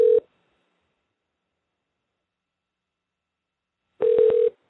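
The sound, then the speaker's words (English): A telephone line during dialing gives a short steady tone, then a long silence, then a second tone burst broken by a few brief clicks before it cuts off. “She gave me a number to dial her at, so let me see if I can get her on the line. Stand by. As we dial, there we go.”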